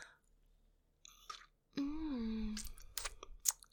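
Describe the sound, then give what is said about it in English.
Wet mouth sounds of juices being sucked off fingers: a few soft smacking clicks, then a drawn-out moan-like voiced tone, then a cluster of sharper wet clicks and smacks. “Sucking the juices off my fingers.”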